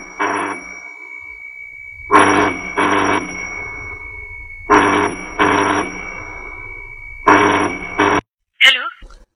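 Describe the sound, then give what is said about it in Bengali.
Ringback tone on an outgoing telephone call, repeating in evenly spaced double pulses with a steady hum underneath, followed by a brief sound at the end as the call connects. “তা মায়ের কথা শুনে phone করেছিলাম তনয়াকে।”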